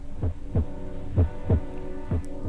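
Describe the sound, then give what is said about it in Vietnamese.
Heartbeat sound effect of deep, muffled low thumps in a steady lub-dub double-beat rhythm, a few beats in total, over a faint low hum. “nhịp tim của mình đập gần như là muốn dừng lại. Đầu tiên là nhanh, chậm dần, chậm dần.”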